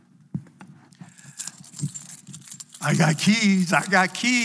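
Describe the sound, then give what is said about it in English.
A bunch of keys jangles in a bright, scattered metallic rattle for a few seconds, then a voice speaks. “A lot of keys here. Not very many as there used to be.”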